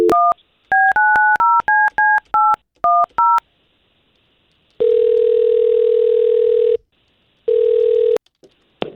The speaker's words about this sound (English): we're going to try to give her a call right now